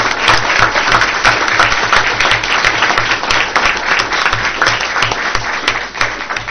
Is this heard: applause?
yes